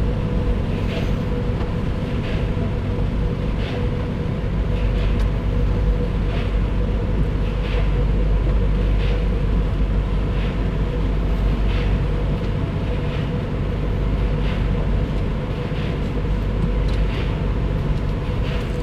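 A car rolls out of an automatic car wash, with a steady low rumble of machinery and engine under a regular, evenly spaced ticking that repeats throughout.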